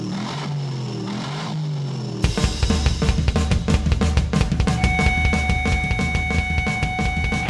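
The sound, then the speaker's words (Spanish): Engine roar from a supercharged V8 car with eight cylinders and 600 horsepower at the wheels, bursting in loudly after a quieter opening and revving hard in rapid, pulsing surges that stay loud to the end. “el último de los V8. Casi nada, muchacho. 8 cilindros, doble cámara. Dile lo del compresor. 600 caballos de potencia en las ruedas. Es música para mis oídos.”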